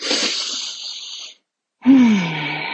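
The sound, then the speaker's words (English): A deep, conscious breath: a long breathy inhale that is fairly loud and steady, then a short silence, then a voiced exhale whose low pitch slides gently downward as it fades. “let's start by just taking a deep and conscious breath together.”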